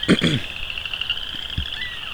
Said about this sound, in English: Probably western chorus frogs.